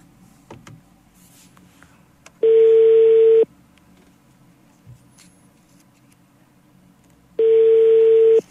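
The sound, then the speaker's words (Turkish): Telephone ringback tone on a call that is not connecting: two steady, mid-pitched one-second tones separated by about four seconds of near silence, with a low background hum throughout. “E, düşmüyor yine Esra Hanım telefonu. Düşüyor şimdi.”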